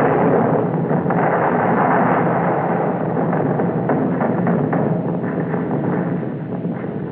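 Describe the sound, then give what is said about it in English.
Naval gunfire as an Allied Eastern Fleet task force bombards the fortified island of Sabang off Sumatra in 1944. A dense, continuous, muffled roar of overlapping blasts and thuds runs throughout, tapering slightly at the end. “Powerful Allied Eastern Fleet task force today bombarded Sabang, a small fortified island off the northwest tip of Sumatra.”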